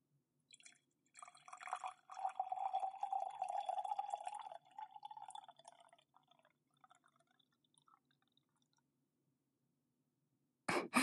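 Hot water is poured slowly for making tea: a steady trickling stream for several seconds that thins into scattered drips, then falls silent before a brief knock at the very end.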